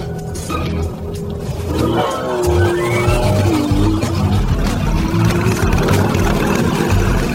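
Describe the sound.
Loud, continuous engine roar of a motorcycle chasing a car, the revving climbing in pitch as it accelerates and then holding a dense, gritty drone.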